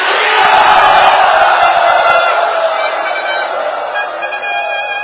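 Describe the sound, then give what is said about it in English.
A large crowd at a devotional gathering loudly chants 'Hari Bol' as one dense, roaring mass of voices, sustained throughout and easing slightly toward the end. “Whoever specifically wants to hear Bhakti Charu Maharaj give class, please loudly chant Hari Bol.”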